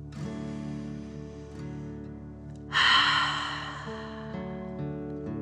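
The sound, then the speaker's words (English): A single breath during a guided movement exercise: an airy whoosh that rises suddenly and fades over about a second, over soft, sustained background music. “Let your arms float down and breathe in and out.”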